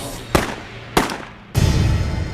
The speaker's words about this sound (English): 2 shots rang out.